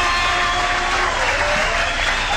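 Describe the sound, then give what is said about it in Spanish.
Dense, steady applause for a performer, with many hands clapping together at an even, loud level and no break. “Y un aplauso bien grande para Héctor, vaya que se lo agradezco. Vaya el aplauso y ahí está Héctor enseguida hablando.”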